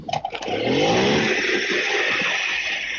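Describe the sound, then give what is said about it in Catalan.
A small motorbike engine revs up and settles into a loud, steady buzzing drone, with a few brief clattering knocks at the very start and no voices. “Ho sents? Se sent perfectament. A més, el motoret, jo me'n record, vamos, quan dormia a casa meva predina, quan pujaven els motorets així que feien aquest renouet, això m'adú la infantesa.”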